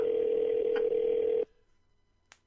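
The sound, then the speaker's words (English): A steady telephone dial tone hums for about a second and a half, then cuts off abruptly. Near silence follows, broken by one faint click. “You're drunk dialing people right now.”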